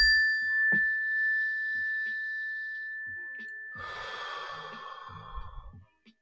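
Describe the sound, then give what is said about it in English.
A single mindfulness bell is struck at the start of a breathing exercise. Its clear, steady tone rings on and slowly fades, and a soft breath is heard partway through. “When you hear the bell, everybody, just take a slow, deep breath.”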